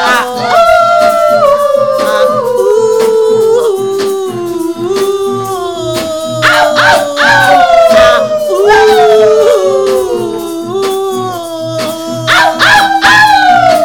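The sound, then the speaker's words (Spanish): Several women howl together in imitation of wild animals. Their long, loud, overlapping howls glide and fall in pitch, broken by sharp yips and whimpering cries. “Todas las mujeres salvajes arriba, aullando.”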